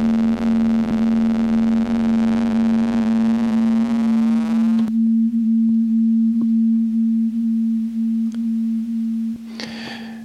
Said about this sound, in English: So that's a nice demonstration of how lovely digital oscillators can sound and how harsh.